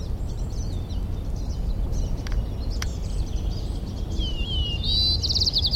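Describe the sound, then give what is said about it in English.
A White-crowned Sparrow sings near the end, a clear high whistled note running into a rapid buzzy trill, loud over a steady low background rumble, with a few faint high chirps earlier. “White-crowned Sparrow A continued.”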